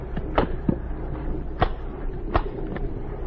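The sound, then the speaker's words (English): Cases holding bombs are shut, giving a few sharp knocks and clicks spaced irregularly over low background noise. “What are you doing with those bombs? Looking them over. Well, I've told you how they work. Close the cases. We won't open them again.”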